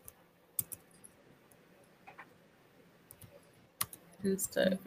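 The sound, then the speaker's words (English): Scattered keyboard clicks as someone types on a computer keyboard, a few sharp taps spread over several seconds, with a voice heard briefly at the end. “I'm gonna type that in as well. That's one thing I need to learn how to do, is multitask with writing, typing, and”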